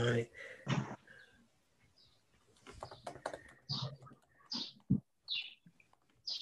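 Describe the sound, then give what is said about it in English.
Birds chirping in the background of a meeting as participants join: a few brief, high chirps scattered between people talking, with some light tapping. “I hear birds. Who has birds?”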